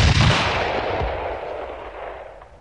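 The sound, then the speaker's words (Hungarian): A single loud rifle shot fired at a flock of starlings, a heavy, booming crack at the start that fades slowly into a long, rumbling tail. “A fene egye meg! Ismét elhibáztad. Lassan már fel sem rebbennek, ha rájuk lövök, pedig akkorát szól ez a puska, mint egy ágyú.”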